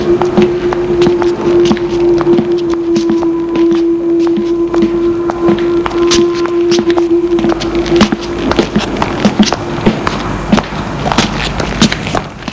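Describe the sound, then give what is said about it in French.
Footsteps walking behind a woman: many irregular, sharp steps run through the whole stretch, over a steady low tone that drones for about the first eight seconds and then stops. “Elle entend des pas derrière elle et continue à marcher. On continue à marcher derrière elle. Ça la gêne d'entendre des pas derrière elle.”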